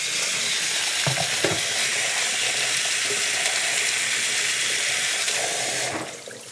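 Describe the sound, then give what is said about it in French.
Meat sizzles steadily as it fries in a pan, its underside browning; a continuous, fairly loud hiss that drops off and fades just before the end. “Ma viande cuit gentiment. Le dessous commence à colorer comme il faut.”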